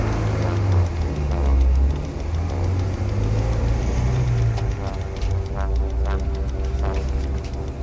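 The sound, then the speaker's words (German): Car engine left running while the car waits at a house, a steady low rumble with a constant mid hum that holds evenly throughout. “Lassen Sie den Motor laufen. Vielleicht müssen wir ziemlich schnell weg.”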